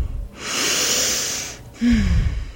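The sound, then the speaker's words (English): A long, breathy exhale released after holding the breath during a guided breathing exercise, a soft airy rush lasting over a second, then a shorter second breath follows after a brief pause. “Hold. Exhale. And return to normal breath.”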